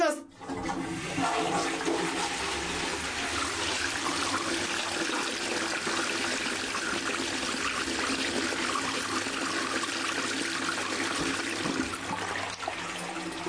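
A toilet flush: a sudden rush of water that swells into a steady, loud gushing swirl lasting many seconds before cutting off near the end.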